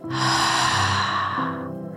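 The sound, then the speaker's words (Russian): Deep breathing during a beginner yoga exercise, in through the nose and out through the mouth: one long, steady, fairly loud airy breath that eases off slightly toward the end. “Делаем глубокий вдох через нос, а выдох через рот.”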